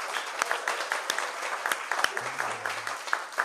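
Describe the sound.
An audience applauds a guest cook from Atlanta, Georgia, known for handmade biscuits. The clapping is steady and dense, with a few sharper individual claps cutting through the wash.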